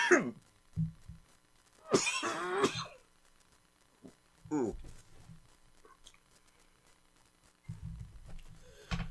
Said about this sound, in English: Ooh, my first coughing break. Been hacking up a lung all day